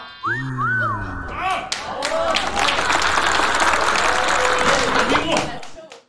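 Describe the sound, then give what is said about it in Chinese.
Audience applause at a Chinese comic crosstalk performance: a few raised voices at the start, then dense, loud, sustained clapping that lasts several seconds and stops abruptly near the end. “这诗的题目，您各位听完了都得给我鼓掌。”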